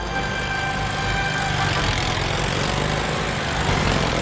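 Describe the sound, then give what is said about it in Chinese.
Engine rumble of motorized units and tanks driving past in a military parade through Tiananmen Square, a loud, steady, low drone that continues throughout with no talk. “在摩托部队、坦克部队通过天安门广场的同时”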